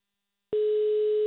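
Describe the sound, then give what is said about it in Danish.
Telephone tone heard while a call is placed on a phone: silence, then a single steady, continuous tone that begins midway and holds to the end, with no voices. “Lars Løkke er i gang med at ringe til nogle af de helt store personer i dansk erhvervsliv.”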